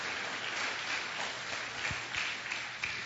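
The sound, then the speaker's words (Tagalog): A church audience applauds the Lord, producing steady, dense clapping that stays even and sustained throughout, with no clear break or peak. “Pwede pong palakpakan natin ang Panginoon sa Kanyang kabutihan sa atin.”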